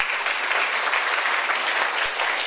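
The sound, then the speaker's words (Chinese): A church audience applauds during a service. The clapping is dense, continuous and evenly sustained from start to finish. “我们给神一个掌声吧”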